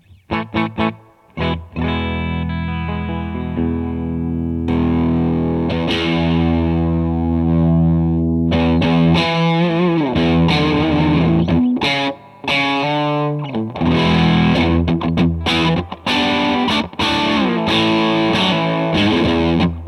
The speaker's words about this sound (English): Eureka. A fuzz. Let's check out the Eureka fuzz.